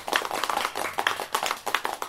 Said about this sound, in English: Then everybody clapped.